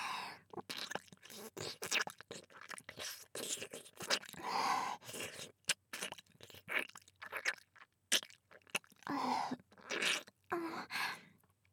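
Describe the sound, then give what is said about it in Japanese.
Chewing of a soft manju bun, with many irregular wet, crunchy mouth sounds and small bites that come in uneven bursts and short pauses, fairly quiet throughout. “まんじゅうおいしいです。”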